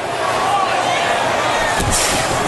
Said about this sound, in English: No, the reverse choke slam.